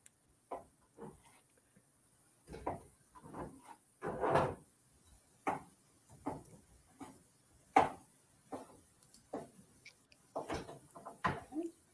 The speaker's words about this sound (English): cut up my potatoes. These I usually like to cook cut a little small as well.